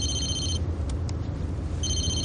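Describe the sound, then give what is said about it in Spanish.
A car telephone rings with two bursts of bright electronic trilling separated by a pause, heard over a steady low rumble. “toma el teléfono del coche”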